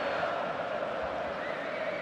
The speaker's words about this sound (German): Gut zu hören, die ungarischen Fans, 2.000 bis 3.000 sollen hier sein.